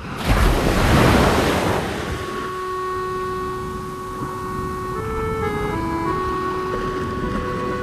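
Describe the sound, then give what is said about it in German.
Sea waves surge in a broad rushing hiss that swells loudest over the first two seconds, then ease into a steady wash beneath sustained droning musical tones whose pitch shifts near the end. “Das Meer. Immer wieder das Meer.”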